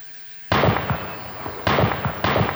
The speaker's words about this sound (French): Les pirates s'apprêtent à tirer quand trois coups de fusil partent d'un fourré.